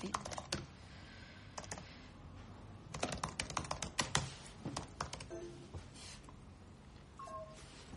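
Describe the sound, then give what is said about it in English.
Typing on a laptop keyboard at a desk: rapid, irregular bursts of crisp key clicks broken by short pauses, fairly faint and with no voices. “She sits at her desk. She types, "I would like a private chat."”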